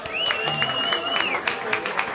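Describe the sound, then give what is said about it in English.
Audience applause at a live radio performance, steady and moderately loud across the whole clip with scattered sharp claps and a long sustained whistle-like tone in the first half. “please, another round of applause”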